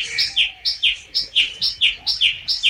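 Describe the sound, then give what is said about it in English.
Bird song rings out as a series of bright, high chirps in quick, even succession, each a short two-part phrase, many repeated notes with no voices over them. “And Darzee filled his throat and sang.”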